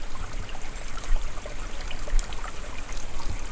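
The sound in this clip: Water laps and trickles continuously at a small wash-house in a forest, a steady, dense, bubbling wash of moderate loudness with no talking.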